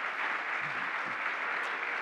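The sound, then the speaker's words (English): A church audience applauds to honor a couple, many hands clapping in a dense, steady wash of sound that holds at an even level for about two seconds. “If you're ever going to clap for me and my wife, you have to clap for them, all right? So why don't y'all go ahead and honor them.”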